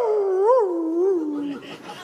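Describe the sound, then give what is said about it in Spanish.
A human voice imitates a dog howling: a sustained, mid-pitched wavering tone that bends up and down, then slides lower and breaks off into a breathy, rough tail. “Y a los 10 minutos el perro...”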